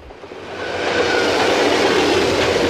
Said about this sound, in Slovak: Toto znie, keď stojíš pod viaduktom a nad hlavou ti prehrmí rýchlik.